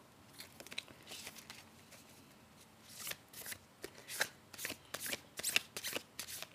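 Tarot cards being shuffled, with many quick papery riffles and crisp bursts that grow louder and more frequent in the second half, with no talking.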